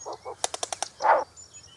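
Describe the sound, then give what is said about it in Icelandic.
Short-eared owl wing clapping in a territorial display: five sharp, dry claps in a quick, even rhythm, set between softer, duller bursts before and after, against a quiet background. “Því stærri vöðvar, því háværi eru klöppin. Branduglan sýnir að hún er tilbúin að leggja sig í hættu við að venda sig og sína og með klappinu segir hún við aðra að þetta landsvæði sé frátekið.”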